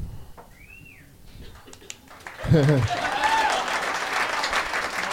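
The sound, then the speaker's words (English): Applause breaks out about halfway through and carries on to the end, dense and steady beneath people talking over it. “Very interesting statement to applaud. Running dry. Clap, clap, clap.”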